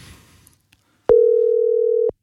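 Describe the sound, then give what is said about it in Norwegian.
A single steady telephone ringback tone from an outgoing call placed to a town, sounding as one loud, level beep lasting about a second after a brief stretch of faint noise, with no voices present. “Vi har tatt en telefon, og denne gangen så ringer vi til Tønsberg.”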